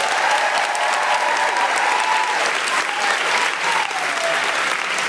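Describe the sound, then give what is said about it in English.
Live comedy show audience applauding a comedian as he comes on stage, a loud, continuous sheet of clapping with a few voices calling out above it. “Please put your hands together and make extraordinary, welcoming, guilty feminist noises for the wonderful Garrett Millerick!”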